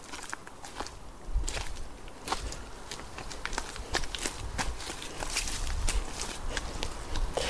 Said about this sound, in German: Also wir befinden uns jetzt immer noch im Gelände äh, vom Friedhof und laufen mal ein Stück runter.